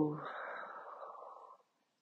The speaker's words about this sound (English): inhale as deep as you can. Let the belly expand. And slowly exhale.